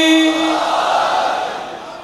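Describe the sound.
Crowd chanting the response to the slogan Nara-e-Haidari at a religious recitation gathering, a broad, loud collective shout that follows a single raised voice and gradually fades.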